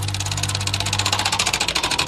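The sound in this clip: A prize wheel spins with a rapid, steady run of many clicks as it ticks past its pegs, over a constant low hum.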